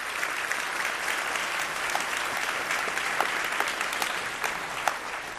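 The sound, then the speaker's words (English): Audience applause as Garry Kasparov is welcomed on stage, a steady, dense wash of clapping that holds at an even level for about five seconds, with no voices over it. “please join me in giving a warm welcome to Mr. Garry Kasparov”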